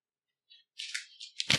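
A paper envelope being opened: a tiny tick, then crisp rustling and tearing bursts of paper that grow louder toward the end, with no voices over it.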